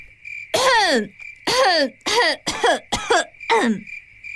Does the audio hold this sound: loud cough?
yes